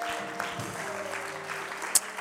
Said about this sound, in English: Would you clap your hands unto the Lord tonight?